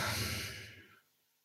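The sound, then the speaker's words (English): A deep breath taken and let out as a soft, airy rush of breath. It is steady for about half a second, then fades away to near silence, with no talking. “Another deep breath.”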